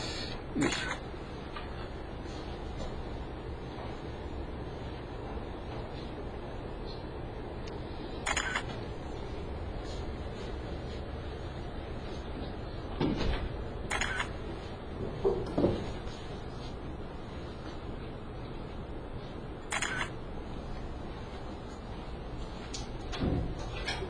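A camera shutter clicks several times at uneven intervals while photographing a blackboard. The clicks are sharp but faint over a quiet, steady background hiss.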